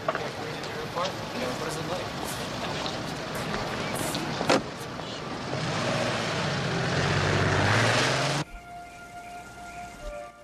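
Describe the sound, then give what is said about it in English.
A Porsche drives away along a street, its engine noise swelling steadily to a loud broad rush and then cutting off abruptly, leaving a quieter background with faint steady tones. “Alex looks down the street and sees a blonde woman getting into Nick's Porsche with Nick. Alex looks somber as she watches them drive away.”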